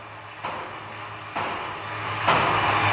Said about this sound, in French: C'est ce qu'on va voir avec une sorte de simulateur qui maltraite une roue pour tester sa résistance.